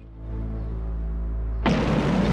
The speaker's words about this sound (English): A car bomb in archive footage.